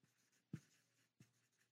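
Drawing on a board, two sharp strokes with faint scratching between them, quiet and alone.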